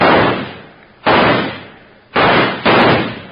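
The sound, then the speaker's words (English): Gunshots blast a locked door's lock loose: four sharp, heavy bangs, each with a long decaying tail, the last two close together, loud and with no voices. “I'll fix that right now. Stand back. I'm going to shoot that lock loose.”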